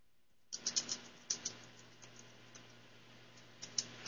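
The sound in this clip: Someone types a short message on a computer keyboard. Faint key clicks come in a few quick bursts separated by pauses, over a soft steady hum.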